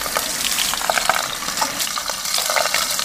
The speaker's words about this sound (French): Ensuite, on va rincer gentiment.